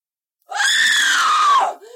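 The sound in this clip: A woman in labour lets out a single loud, high-pitched scream. It holds steady for about a second, then its pitch sags as it breaks off, followed by a faint trailing breath.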